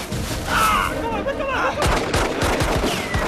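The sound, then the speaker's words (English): Pistol gunfire in a snowy battle drama with Taliban fighters charging stranded U.S. soldiers. Shouting comes first, then a rapid burst of many sharp, loud shots. “When his pistol is out of ammo, he picks up the other one and fires on.”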